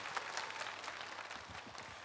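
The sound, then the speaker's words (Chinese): Warm applause welcoming 26 investors at an awards gala: a faint, steady patter of many hands clapping that runs without a break. “当然我们再次用热烈掌声欢迎26位投资人到来，”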